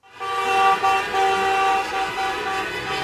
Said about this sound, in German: So klangen die Autokorsos, die in dieser Woche durch verschiedene deutsche Städte gefahren sind.